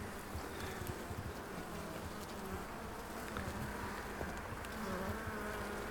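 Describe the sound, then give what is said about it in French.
Honeybees buzz around a beehive frame during the busy spring brood season. The buzzing is a dense, steady hum that stays continuous and fairly quiet throughout, with no talk. “essaie de pas écraser les abeilles.”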